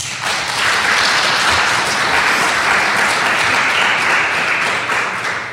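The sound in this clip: An audience welcomes the panel of an art review discussion with loud, sustained applause that swells, holds steady and eases off slightly at the end.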